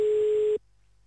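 A ringback tone on an outgoing telephone call: one steady mid-pitched tone of about half a second that cuts off abruptly into near silence.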